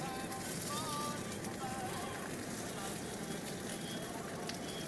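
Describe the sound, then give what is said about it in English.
Stuffing patties frying in a pan give off a steady, crackling sizzle that runs continuously, with people talking faintly over it. “Well, the stuffing starts off in nice little pancakes, but it's not going to work. I don't think the pan's not big enough.”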